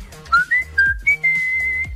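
Someone whistling an old shoe polish advertising jingle, a short tune of clear, bright notes that step mostly upward and end in a long held tone, with no talking.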